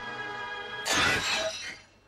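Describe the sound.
A vase shatters on the floor: one sudden, loud crash midway that breaks into a short, bright scatter of pieces before fading.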